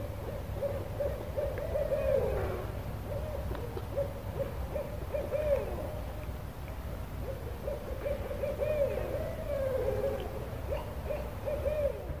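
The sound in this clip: Barred owls hoot back and forth in two bursts of rhythmic, rolling hoots. Quiet, steady background hiss fills the gaps between the calls.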